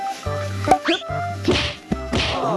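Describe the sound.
Muay Thai kicks in the hak nguang aiyara move: a few sharp, loud thwacks of strikes landing, spaced apart with brief quieter gaps.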